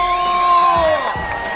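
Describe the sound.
An audience cheers with whoops and shouts as a host is welcomed on stage, the crowd noise rising and falling over sustained musical tones.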